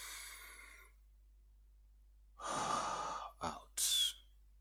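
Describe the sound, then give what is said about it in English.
Deep breathing during a guided meditation: a long airy inhale, then a couple of shorter breathy bursts, soft and alone. “Let us meditate to elevate. Right now, breathe in.”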